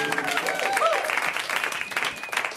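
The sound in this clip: Audience applause and cheering for a comedian at a stand-up comedy show: a steady burst of clapping that lasts throughout, with a voice speaking over it.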